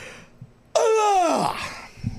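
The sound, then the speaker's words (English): A single sneeze erupts suddenly after a quiet pause, a loud voiced burst whose honking pitch slides downward, seal-like, before breathy noise trails off. “Sorry, I sneezed. Thank you. Good, so tight. That was a sneeze? That's how I sneeze, yeah. Sneezed like a seal.”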